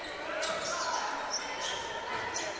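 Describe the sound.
A basketball is dribbled on the court during a game, giving a few sharp, quick bounces under a commentator's voice.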